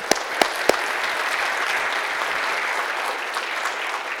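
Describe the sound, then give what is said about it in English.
An audience in a church gives a standing ovation to new members of the audience. A few sharp, distinct claps ring out at the start before blending into steady, full applause that holds evenly to the end. “I bet you didn't realize you get an ovation today.”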